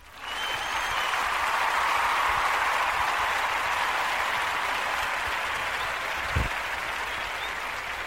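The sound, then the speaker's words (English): A studio audience breaks into steady, full applause that holds at an even level for about eight seconds, with a single low thump near the end. “Can I hear from our studio audience? We have a studio audience. Listen to this.”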